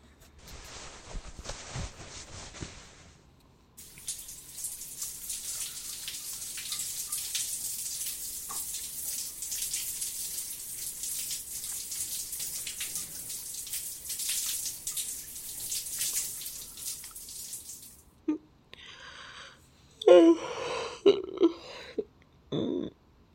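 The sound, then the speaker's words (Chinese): Warm water runs from a tap while someone bathes, a steady bright hiss lasting around fourteen seconds after a shorter earlier burst of flow. It then stops and gives way to a few clunks and splashes. “洗干净就是舒服，嗯，温水洗澡，突然感觉都有点困了”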